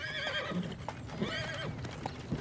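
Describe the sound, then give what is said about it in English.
A horse pulling a horse-drawn carriage neighs and whinnies in repeated high, wavering calls, with clip-clop hoofbeats underneath. The sounds are fairly faint. “Blair sits slumped on the school's stone front steps as Brock slowly drives the purple horse-drawn carriage up.”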